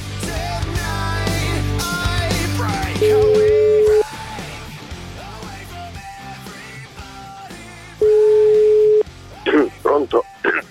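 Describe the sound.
Italian telephone ringback tone on an unanswered call, a steady mid-pitched tone sounding twice for about a second each, the two tones four seconds apart, with voices and other sounds around them.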